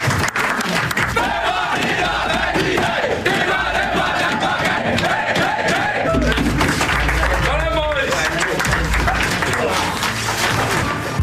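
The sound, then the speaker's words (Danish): A team cheers in the locker room after winning, with many voices shouting and whooping together in a loud, unbroken din that never lets up. “der følger man den efterfølgende jubel i omklædningsrummet. Vi kan lige prøve at høre det her.”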